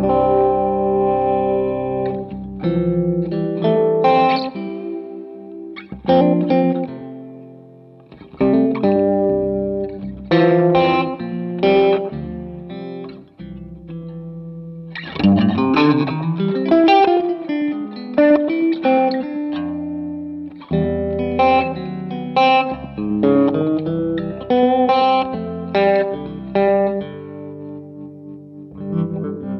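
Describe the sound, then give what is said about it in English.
A Fender Jazzmaster electric guitar plays through effects pedals for about half a minute, alternating strummed chords and picked melodic runs. The tone is coloured by distortion and chorus with echo tails, and phrases are separated by short pauses with no talking. “maybe if you'd be so kind to maybe put on the Jazzmaster, because yeah. I'm sure as we get through your pedals, we'll go back to the Mule, but for maybe sure. Just to hear how the Jazzmaster speaks with your hands on it.”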